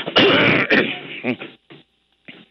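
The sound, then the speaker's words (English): A person clears their throat with a loud, harsh rasp, followed by a few quieter, broken rumbles that fade into silence. “Something in my throat this morning.”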